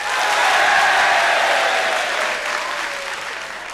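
Loud, dense applause and cheering from a concert audience greeting presenter John Peel and the band at a 1971 BBC Radio One concert, sustained throughout and easing slightly toward the end.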